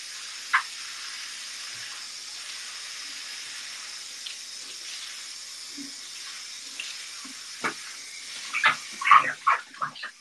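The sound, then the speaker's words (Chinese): Water runs steadily from a tap during a quick rinse-off bath, a soft even hiss with a few faint knocks, then a cluster of louder splashes and clatters near the end. “哎，洗个小澡，洗个小澡，冲一下，稍微冲一下吧。”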